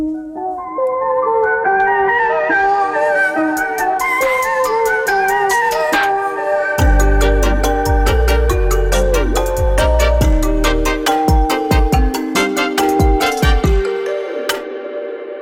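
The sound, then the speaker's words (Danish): A signature theme tune plays, bright bell-like melodic notes opening alone before deep bass and punchy percussive hits join about halfway, steady and loud throughout with no voices. “Men skal vi ikke lige først høre kendingsmelodien, når jeg har sagt velkommen til Tabloid.”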